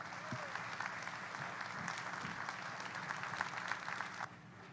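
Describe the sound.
Church audience applauding to welcome a guest speaker, a steady, dense wash of clapping that holds even throughout and drops off slightly at the very end.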